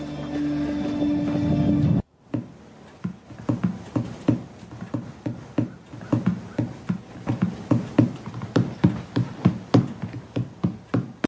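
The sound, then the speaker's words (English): Fingers drum on both armrests of a chair: many soft, quick taps in uneven rhythmic clusters, starting right after an abrupt cut from a louder sound. “He's sitting in a chair and he's drumming with his fingers on both armrests.”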